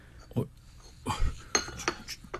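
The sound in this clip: Plates and dishes clink at a Passover meal, with a few light, sharp clinks of cutlery and crockery scattered through the moment and faint voices in the background.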